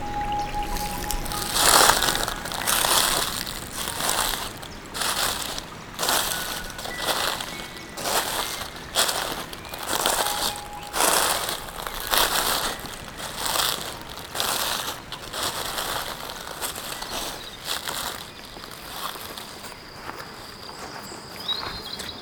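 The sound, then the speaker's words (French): Footsteps crunch through a carpet of dead leaves on a trail toward a summit, with many steady, rhythmic crackling steps of fairly even loudness continuing throughout without talk. “au-delà de ce tapis de feuilles mortes vers le sommet de Cabaner.”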